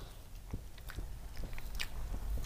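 Biting into a light, frosted cake, followed by soft, moist chewing: many faint, crisp clicks and crunches in an uneven rhythm, heard alone.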